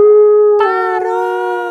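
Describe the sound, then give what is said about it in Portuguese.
A deep, determined wolf howl: one loud, sustained cry at a steady pitch that turns fuller and harsher partway through and carries on alone to the end. “Interrompeu a bicharada com um uivo grosso e decidido.”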